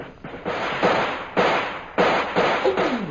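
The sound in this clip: Gunfire rings out in a firefight, several sharp, loud shots at an irregular pace, each followed by a rough, noisy decay over a constant hiss.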